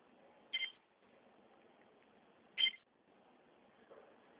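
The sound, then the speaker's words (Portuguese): Quiet beeps from a phone while hanging up and placing a call: two short, high beeps about two seconds apart, then a fainter third blip near the end, over a low hum. “Eu vou desligar e vou fazer uma ligação. Vou fazer uma ligação formal, tá bom?”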